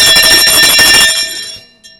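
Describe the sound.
A hand bell rung in celebration, with rapid, loud, bright strokes for about a second before the ringing stops and the tone fades away.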